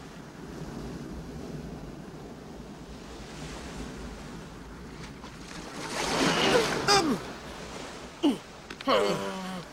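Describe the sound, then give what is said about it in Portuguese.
Howling wind and surging waves of a storm at sea in an animated penguin film form a steady rushing roar that swells loudly in the middle, with brief voices near the end. “Olha, não dá pra nadar nessa tempestade.”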